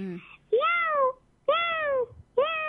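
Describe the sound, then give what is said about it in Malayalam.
A human voice imitates a cat meowing, giving three drawn-out, mid-pitched meows separated by short pauses. Each meow rises briefly and then slides down in pitch, and a short fragment comes before the first. “ആ, first ഇവിടെ അവതരിപ്പിക്കാൻ പോകുന്നത് പൂച്ച.”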